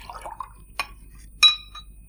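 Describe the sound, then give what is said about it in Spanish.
Another drink being poured into a glass: a faint liquid trickle with two short glassy clinks, the second brighter and briefly ringing, against a quiet background. “¿Puede servirme otra copa?”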